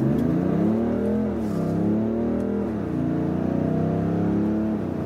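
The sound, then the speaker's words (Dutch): Engine of a BMW X7 SUV while driving: a steady low, smooth drone whose pitch swells and dips a few times, heard alone without voices. “De BMW X7 is de grootste BMW ooit gemaakt.”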